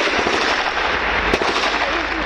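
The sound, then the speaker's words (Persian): Israeli army airstrikes and artillery fire on northern and southern Gaza: a dense, loud, continuous rumbling and crackling barrage, with one sharper blast cutting through midway. “حملات شدید هوایی و توپخانه ارتش اسرائیل به شمال و جنوب نوار غزه، حملاتی که باز هم بر شمار غیر نظامیان کشته شده در نوار غزه افزود.”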